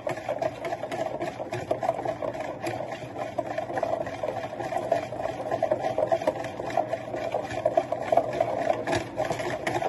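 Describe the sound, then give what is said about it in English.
A whisk beats cream in a bowl while liquid is slowly dribbled in, producing rapid, continuous, rhythmic scraping and sloshing that stays steady and even throughout, with no talk. “Very slow. Just dribble it in. Slowly dribble, quickly whisk.”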